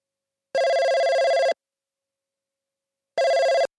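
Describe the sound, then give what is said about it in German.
A telephone rings twice for an incoming call, each ring about a second of even, buzzing electronic tone, separated by a long silent gap, with no voices. “Hendrik ruft Sachiko an.”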